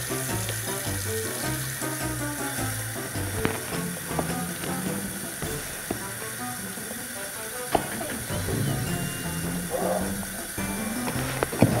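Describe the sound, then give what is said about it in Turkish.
Water runs from a bathroom sink tap in a steady, unbroken hiss that lasts the whole clip, with other tonal sounds layered over the flow. “Çeşmeyi açalım.”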